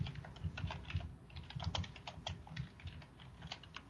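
Fingers type on a computer keyboard while running a search: many quick, light key clicks in an uneven, continuous patter, quiet throughout.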